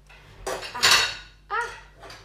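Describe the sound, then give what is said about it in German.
A plate is pushed into an already packed dishwasher, giving a few sharp clinks and clatters of crockery knocking together, separated by short quiet gaps. “Hier habe ich noch einen Teller, den möchte ich hier noch irgendwie reinbekommen. So. Jawohl. Also die Geschirrspüle ist schon mal pumpenvoll.”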